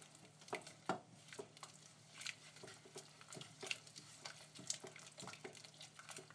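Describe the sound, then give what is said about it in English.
Stirring of a reducing liquid in a pan on the heat: many soft, irregular clicks and scrapes over a faint bubbling sizzle, quiet throughout with no voices. “We need a bit of a reduction in the amount of liquid here. Keep it stirring so it doesn't burn.”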